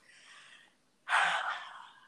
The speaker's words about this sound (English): Deep breath, long pause.